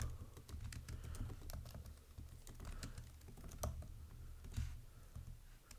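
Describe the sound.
Rapid typing on a computer keyboard while someone looks up records: many irregular, crisp keystroke clicks run continuously over a low steady hum, with no voices.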